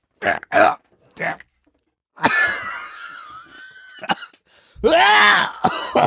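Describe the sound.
Coughing and throat clearing after a small chunk of food came back up: a few short, harsh coughs, then longer rasping, voiced throat-clearing bursts, with a brief stretch of talk between them.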